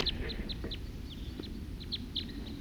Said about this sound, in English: Wild birds.